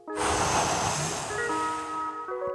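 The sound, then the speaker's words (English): A deep breath drawn in and let out during a guided relaxation exercise, heard as one long, loud, airy rush lasting about two and a half seconds, with soft sustained tones held steadily underneath. “I want you to take another deep breath in and out.”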